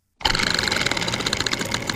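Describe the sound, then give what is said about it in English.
A spinning prize wheel on a movie-comparison game segment gives out a rapid, loud ratcheting clatter of clicks. It starts abruptly after a moment of silence and keeps a fast, steady rhythm throughout. “it's time for the spinning wheel of chance to tell us what three categories these two movies will use to battle it out. I can't wait for this one. Let's spin the wheel and find out.”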